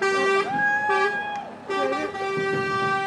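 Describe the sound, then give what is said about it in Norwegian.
Loud vehicle horn tones, sustained and steady, ring out in several blasts as a huge car drives in toward a waiting crowd at a toll-ring gathering of cars and motorcycles, mounting the curb. “nå kommer det en kjempebil inn og kjører rett mot oss.”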